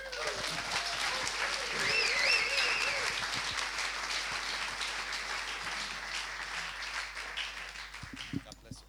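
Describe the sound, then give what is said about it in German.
Applause at a church gathering welcoming a guest speaker: full, continuous clapping with a voice over the first few seconds, thinning toward the end into scattered individual claps. “Und mit einem großen Applaus begrüßen wir Emanuel Wärmer.”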